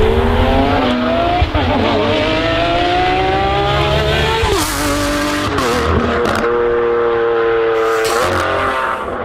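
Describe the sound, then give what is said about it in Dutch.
A Novitec-tuned Lamborghini Aventador SVJ engine revs with a loud, sustained harmonic roar, its pitch climbing and dropping repeatedly across several rev cycles, punctuated by a few sharp bursts. “Over gas gesproken, we hebben ook wat geluid van de Novitec Lamborghini Aventador SVJ. Even luisteren.”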